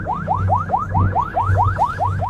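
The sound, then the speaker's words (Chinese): A China Coast Guard patrol boat's siren, switched on as the boat speeds after a suspect vessel: a loud, fast-repeating yelp of quick rising sweeps, steady in rhythm, over a low rumbling engine drone. “加速了，加速了， 开警报”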